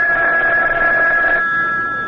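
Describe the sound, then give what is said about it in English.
A telephone rings with a steady high tone and a lower tone beneath it. The lower tone cuts off partway through and the high ring thins out and fades toward the end. “Oh, that's the phone, Parker.”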